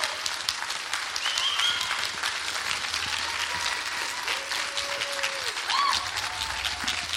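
A church audience applauding to welcome a minister: steady, dense clapping throughout, with a few scattered whoops rising above it.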